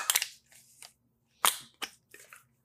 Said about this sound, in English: I'm going to crush a can really quick.